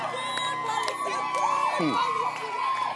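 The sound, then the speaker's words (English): A church audience in Accra shouting and cheering for the Lord, a loud, sustained roar of many voices with high whoops rising and falling over the crowd. “Give the Lord a shout.”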